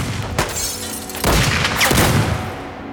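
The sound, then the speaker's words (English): Fusillade of gunfire as men keep shooting into a car: dense, rough blasts, with a few sharper, louder bursts standing out from a continuous, harsh noise, no voices. “Still, the fusillade of bullets continues. The men have no intention of letting anyone inside survive.”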